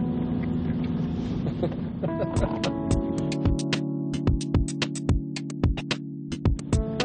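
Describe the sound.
A car driving itself in self-driving mode, a low steady hum inside the vehicle, soon joined by many sharp clicks at an irregular pace.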